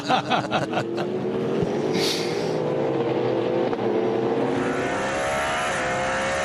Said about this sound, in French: Regardez-les, ces deux Cadillac de chez Jota comme en formation.